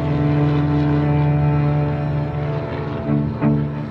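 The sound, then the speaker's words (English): A propeller aircraft engine drones loudly and continuously during a 1937 takeoff, a steady, dense, low-pitched roar with no break and no voices. “It was the sound of the motor I remember the most.”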